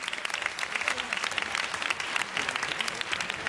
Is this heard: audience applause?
yes